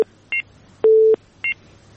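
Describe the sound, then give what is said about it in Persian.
Electronic telephone line tones after a call-in caller's line was cut off: a short two-pitch beep, a longer steady lower tone, then another short two-pitch beep, loud and clean. “تماس از اینا قطع شد”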